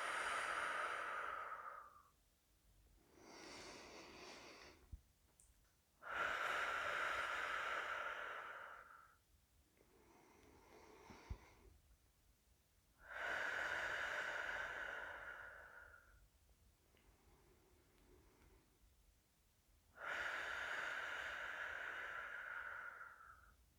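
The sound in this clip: Slow breathing during a relaxation exercise, with several unhurried cycles of breath in and out. Louder, sigh-like breaths alternate with softer, quieter ones, separated by short pauses.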